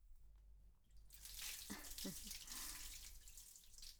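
Water runs to rinse, a faint hissing, splashing flow that starts after about a second of near quiet and continues steadily to the end with small fluctuations.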